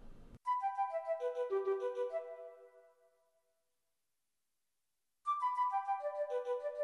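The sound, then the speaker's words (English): An oboe carries the main melody of a piece from Dragon of the Mist while an alto flute plays staccato sixteenth notes outlining a descending arpeggio. The quiet phrase steps down and fades into silence, then begins again. “oboe playing the main melody by itself, with the alto flute playing the filler phrase, which is some 16th staccato notes, outlining basically a descending arpeggio. So that sounds like this.”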